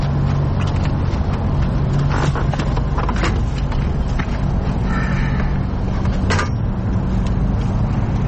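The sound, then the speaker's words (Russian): A pump running inside a car makes a steady, loud mechanical whirr that holds level throughout, with a few brief clicks on top and no talking. “Что за шум? Это насос. Не переживай, заводи.”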